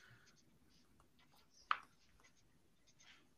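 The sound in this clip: Faint scratching of a pen on paper during a drawing game: a few soft, brief strokes with one sharper tap midway, and no talking over it.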